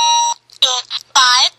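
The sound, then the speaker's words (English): A talking keychain clock announces the time in a thin, buzzy synthetic voice, delivered as a few short, clipped electronic phrases separated by brief silent gaps. “And I have a talking clock, It's not my alarm clock, it's a keychain one, and it sounds like this.”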